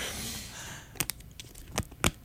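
Aluminium-sealed yogurt container lid being peeled open, stiffer and harder to open than usual: a few sharp, quiet crinkling and tearing crackles arrive at irregular moments against a faint hiss.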